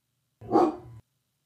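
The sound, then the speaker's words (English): A dog gives a single sudden bark, short and fairly loud, with a slight growling edge. Silence comes before and after it. “oh, it's a dog. Freaked me out.”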